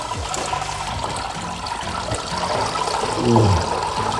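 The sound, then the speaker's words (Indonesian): Liquid trickles and splashes as grated coconut mixed with water is squeezed by hand for coconut milk, a steady, moderate watery dribble that swells into a stronger gush near the end. “Campur kelapa yang sudah diparut dengan air, lalu aduk sampai sari santannya keluar maksimal, baru kemudian diperas.”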